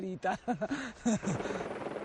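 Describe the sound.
A helicopter used to fly goods to a remote village: a voice is heard briefly, then a steady, rapid rotor throb of even pulses carries on to the end.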